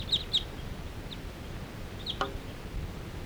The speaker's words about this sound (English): there's a whole bunch of crossbills interacting in the sky here, and now they're all perched up in the fir tree nearby.